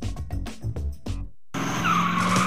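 Race car tires squeal at street drag races on Route 66. After a brief silence, a loud engine roar and a sustained, high screeching skid carry on to the end.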